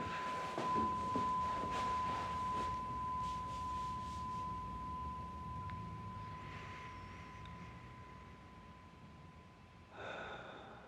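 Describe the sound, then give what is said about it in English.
A meditation bell rung at the start of a meditation practice gives a single pure, clear ringing tone that sustains and slowly fades over roughly nine seconds, with faint soft noise in the background. “I always start with the sound of the bell. And that means that you can actually now start the process of the meditation.”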